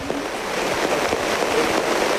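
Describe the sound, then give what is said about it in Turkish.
Heavy rain in Rize before an evening football match, heard as a steady, dense hiss. It stays even in loudness with no pauses. “Rize'de yağmur şiddetini hiç azaltmadan devam ediyor.”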